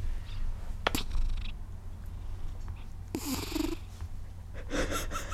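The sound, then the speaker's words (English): A cat sitting on a desk purrs right against the microphone, a low rumbling drone broken by a few short, noisy bursts. No one speaks over it. “Our cat is so cute. He's sitting on the desk that I have my microphone on. He's very cute. Do you want to say hello?”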